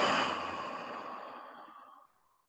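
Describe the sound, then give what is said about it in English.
Long, breathy exhale of a deep breath let out through an open mouth. It starts strong and fades steadily over about two seconds into silence. “Huge breath in. Open your mouth. Let it go.”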